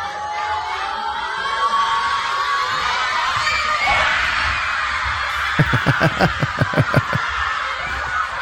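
A crowd of schoolchildren cheers and shouts at the kickoff of a football match screened at their school. A noisy, continuous roar later gives way to a run of sharp rhythmic bursts near the end.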